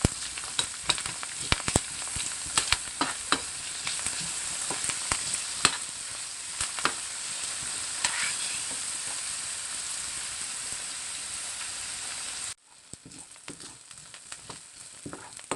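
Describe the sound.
Ginger garlic paste sautés in a pan with a loud, steady sizzle. Sharp crackles and pops break through the frying. The sizzle drops to a quieter level near the end.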